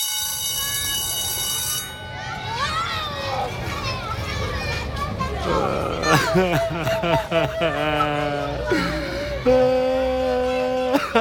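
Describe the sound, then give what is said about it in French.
A recorder flute character cries and whimpers in wavering, sobbing tones, then steady held notes follow in short bursts, with children's voices talking around them. “Mais pourquoi tu pleures? Personne ne veut jouer avec moi.”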